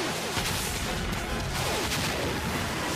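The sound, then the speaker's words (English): Stun rockets fired from a battle van in a video game give a quiet, dense barrage of crackling blasts and booms that overlap without pause throughout. “Battle van, stun rockets, minimum spread.”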